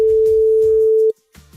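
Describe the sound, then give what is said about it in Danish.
A telephone ringing tone sounds as a radio host calls a listener. The steady, held tone plays over a low rhythmic background and cuts off after about a second, leaving only the faint low sounds. “Det er nemlig nu, jeg ringer til en, der har sendt mig en sms, selvfølgelig med det korrekte svar.”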